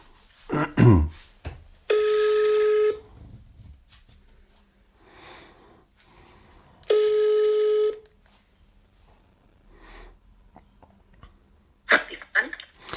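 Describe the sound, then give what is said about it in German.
A telephone call placed on speaker: two long, steady ringing tones about five seconds apart, with brief faint sounds between them and a short burst of noise at the end. “Warte mal, ich rufe meine Mama an. Moment. Mal sehen, ob sie da ist. Ich mach mal laut.”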